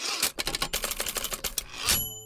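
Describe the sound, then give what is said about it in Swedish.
A hand knocks and bumps a microphone, making a rapid run of many sharp thumps and clicks. A louder knock near the end is followed by a short, faint ringing tone. “Vad daskar jag till micken här.”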